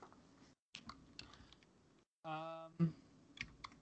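Typing on a computer keyboard: a few faint, irregular key clicks separated by brief silences, with a short voiced sound in the middle.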